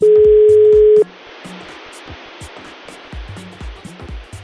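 A telephone dial tone as a call is placed: one steady, loud, even tone for about a second, then it cuts off to a low hiss dotted with faint clicks.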